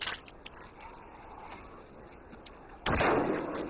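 Gunfire from a sniping exchange: a few faint cracks early on, then one loud shot near the end that lingers with a rumbling tail over a low, steady background.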